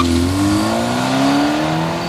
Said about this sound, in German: Dann gaben sie Gas und brausten mit quietschenden Reifen davon.